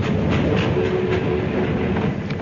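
A train rattles along the tracks across Nebraska, a dense, continuous rumbling clatter with a clickety-clack texture that holds steady throughout, without voices.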